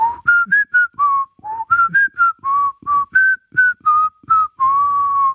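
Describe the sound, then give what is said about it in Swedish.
A person whistles an imitation of an ice cream van's jingle: a bright, clear tune of many short notes in a bouncy, uneven rhythm, with the pitch stepping up and down and ending on a long held note. “Det där var ljudet av glassbilen.”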